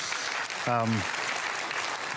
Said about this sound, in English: you can clap for that.